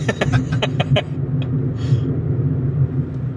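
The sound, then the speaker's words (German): A Corsa overtaking, heard as a loud, steady low rumble of engine and road noise, with a few brief ticks near the start. “Und ähm, ja zieht uns ein Corsa ab.”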